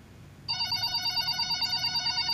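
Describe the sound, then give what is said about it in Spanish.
Telephone ringing with an incoming call: after a brief quiet moment, a bright electronic trill starts abruptly and keeps pulsing in a steady, rapid warble, loud and alone with no voices. “Tenemos una llamada más.”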